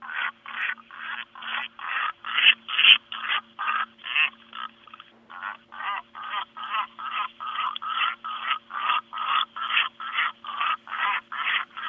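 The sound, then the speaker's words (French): Albatross courtship display calls: a long, steady run of rapid, evenly spaced bill claps and throat clucks, about two or three per second, fairly quiet and with no voices. “Ce sont les parades nuptiales d'albatros. C'est-à-dire lorsque le mâle a trouvé sa femelle, il va la reconnaître en émettant une série de bruits, de claquements de bec, de gloussements de gorge.”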